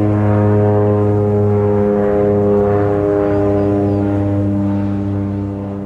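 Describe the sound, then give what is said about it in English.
A float plane engine drones loudly and steadily, a thick low harmonic hum holding constant pitch for several seconds before easing slightly in level at the end. “There was a little bit of a bird in the background, but I was trying to capture the seaplane”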